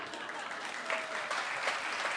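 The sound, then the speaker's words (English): An audience applauds with fairly quiet, even clapping that continues without a break. A few slightly stronger bursts rise out of the steady patter. “not doing this for applause, doing it because it's right.”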